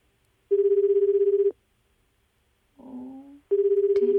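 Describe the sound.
A telephone ringback tone on an outgoing call gives two one-second buzzing pulses, evenly pitched and separated by a gap of about two seconds.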